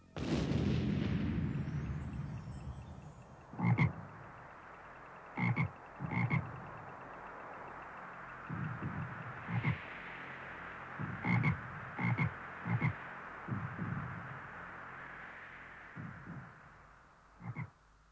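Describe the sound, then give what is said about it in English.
Frog croaking, a series of short, throaty croaks spaced irregularly over a steady background hiss, after a loud opening burst. “Wing of fly and leg of dog, turn this woman into a frog.”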